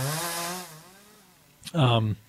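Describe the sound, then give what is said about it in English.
A chainsaw for cutting out an agave stump gives a buzzing drone that fades away, then a short, loud revving burst near the end. “Yeah, there you go, the chainsaw.”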